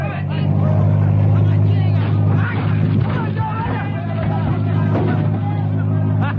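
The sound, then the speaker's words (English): A car engine roars as it speeds up in a radio drama sound effect, a loud, steady, rumbling drone that runs through the whole clip with voices talking over it. “then when I give you the word, speed up again. We'll try to bust through. Okay. Brother, half a dozen of them. Okay, step on the gas. Hold on!”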